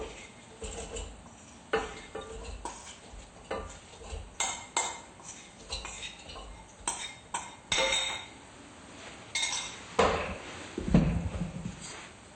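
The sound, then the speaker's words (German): Soaked grain, steeped for eight hours, being filled into a kitchen blender, heard as many irregular clinks, scrapes and soft clattering knocks of utensils and containers, fairly faint with no talking. “Wir haben das Getreide schon 8 Stunden quellen lassen. Normalerweise wäre es jetzt schon hier bei ihm im Mixer Und wir füllen es jetzt hier ein.”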